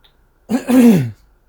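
A single throat clearing from someone with a sore throat, a short, rasping, low-pitched burst lasting about half a second, fairly loud and alone against silence.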